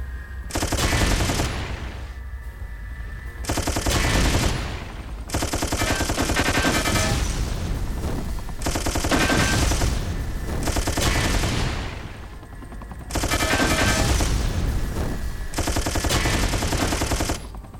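Machine-gun fire in a video game, in several long, loud bursts of rapid, dense shots separated by short pauses.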